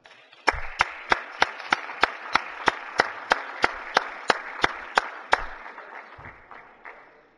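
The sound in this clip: Applause welcoming guests in the Missouri Senate chamber: a wash of clapping with many sharp, evenly spaced claps on a steady beat, then fading away toward the end.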